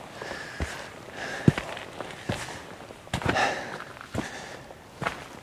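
Footsteps of someone walking up an 8–9 metre slope beside a muddy moor, a few soft, irregular thuds and scuffs over a faint rustling background.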